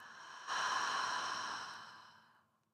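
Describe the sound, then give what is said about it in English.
A single deep breath during a yoga nidra relaxation: a soft intake through the nose, then a long, breathy sigh out through the mouth that fades away over about two seconds. “Take a few deep breaths in the nose and sigh out the mouth.”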